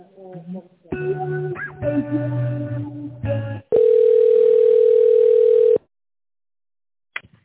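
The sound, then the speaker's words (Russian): A steady telephone line tone lasts about two seconds while an office call is put through to a chief accountant. Shifting tonal sounds come before it, and silence and a brief click follow. “Сейчас, секундочку, я соединю вас с Натальей Анатольевной, главной бухгалтером.”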